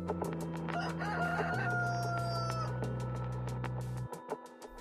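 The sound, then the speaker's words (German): A rooster crows from a tape recording in the pitch dark, one long, loud, strained crow over a steady low hum. The hum cuts off abruptly near the end, leaving faint clicks. “Auch der Hahn vom Tonband kommt. Obwohl es stockdunkel ist, kräht er mit voller Inbrunst.”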